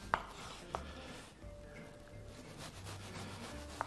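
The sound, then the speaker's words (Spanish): A sharp knife cuts very thin slices from a peeled tomato, making a faint, soft rasping broken by a few crisp clicks. “es bueno tenerlo bien afilado para cortar lonchitas tan finas como estoy cortando”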